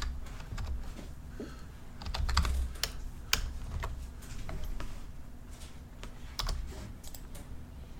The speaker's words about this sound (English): I'm going to type in files.